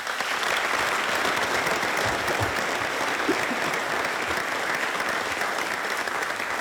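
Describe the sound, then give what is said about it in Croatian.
An audience gives award winners a round of applause at a ceremony. Dense, steady clapping from many hands continues evenly at a moderate level throughout. “Molim vas da još jednim snažnim pljeskom pozdravimo sve nagrađene.”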